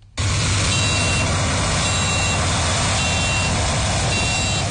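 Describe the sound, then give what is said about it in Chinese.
Three driverless combine harvesters working together in a field at a smart-agriculture farm in Heilongjiang give off a loud, steady engine drone, with a high electronic beep repeating at regular intervals over it. “在黑龙江双鸭山北大荒集团红卫农场智慧农业示范区，3台无人驾驶收割机正在田间协同自主作业”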